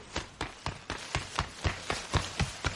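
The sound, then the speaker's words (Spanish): A girl's running footsteps as she hurries with a big bag of candy. Quick, evenly spaced footfalls land with a crisp, tapping rhythm throughout. “Luego la niña corre con una gran bolsa de caramelos en las manos.”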